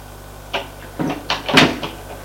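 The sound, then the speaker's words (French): A door opening off a dark upstairs corridor, heard alone as a few short creaks and knocks in quick succession, building to a slightly louder clunk near the end. “Ouvre la porte et la fait entrer.”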